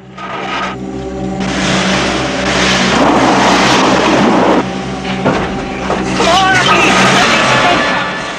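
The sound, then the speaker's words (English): A truck engine revs hard while its front wheel sits stuck in mud, producing a loud, continuous roar that surges and holds at high intensity throughout. “tries to drive the truck, but the front wheel is stuck in some mud.”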